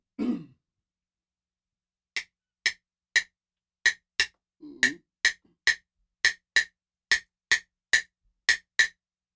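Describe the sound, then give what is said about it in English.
Clave struck in a rhythmic pattern: about fifteen crisp, dry woody clicks with a steady syncopated pulse, heard alone after a brief low sound at the start. “the last one instrument is the clave. Played by Javier Mutis. I guess that's. And it's a very, very popular instrument. It sounds like this.”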